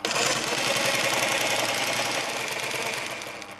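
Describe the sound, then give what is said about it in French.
A Cornely embroidery machine stitches a flower motif with one continuous thread, a steady, fast mechanical whir with a dense rattle that runs the whole time and fades slightly at the end. “C'est une broderie Corneli. Qu'est-ce que c'est la spécificité de la broderie Corneli? C'est une seule fil qui continue, ça coupe pas quoi. C'est un seul fil pour faire tout le motif de broderie? Tout le motif, oui. C'est les Français qui l'ont créé cette machine-là.”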